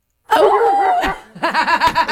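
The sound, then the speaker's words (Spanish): A human voice imitates a dog, first with a drawn-out wavering whine, then with a quick run of short, yappy barks. “Cuando el perro ladra.”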